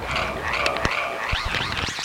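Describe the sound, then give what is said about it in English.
Frog croaking as a steady rasping chorus with warbling tones and a few sharp clicks, fairly loud and continuous throughout, with no voices. “and the frog says, and the frog says. Right.”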